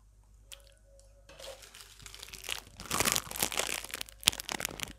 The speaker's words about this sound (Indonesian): Tapi kalian bisa mendengar saya makan kue bolu dan minum teh manis hangat.